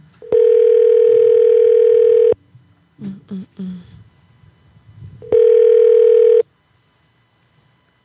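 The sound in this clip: A telephone call rings through to voicemail: a steady ringback tone lasts about two seconds, then a gap with a few faint blips, then a shorter matching tone that stops abruptly.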